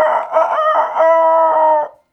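A rooster crows once, a loud, full cock-a-doodle-doo about two seconds long, played alone as a sound effect during a radio bingo number call.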